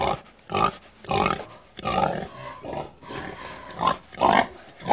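A wild boar grunting: many rough, low, snorting grunts in an irregular rhythm, fairly loud and heard alone.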